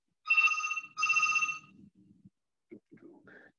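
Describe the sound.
A phone rings during a lecture: two loud electronic ringtone bursts of about half a second each, followed by faint low rustling and brief scattered sounds.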